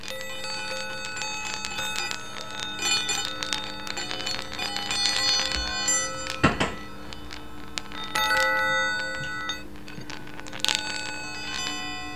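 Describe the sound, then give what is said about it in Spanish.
Sound balls with floating bells inside them chime as they are shaken, giving bright, high, overlapping ringing tones with many quick jingling strikes and a few louder accents, steady throughout with no talking. “Son unas bolas sonoras con una especie de campanas internas en flotación, no os imaginéis otras cosas, y su sonoridad es bastante característica”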